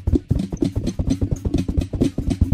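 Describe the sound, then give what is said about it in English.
Running footsteps as a sound effect: a fast, even stream of many heavy thudding steps, fairly loud, with no voices. “That's the sound of me running.”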